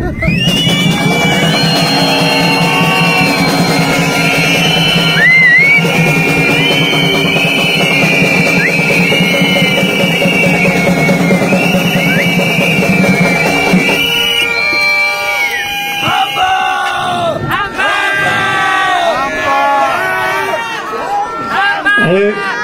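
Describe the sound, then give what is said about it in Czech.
A protest crowd making deliberate noise: loud continuous cheering, shouting and whistling from many people, sustained without pause and rising and falling in intensity. “Takže prosím chvilku hluk, bubny.”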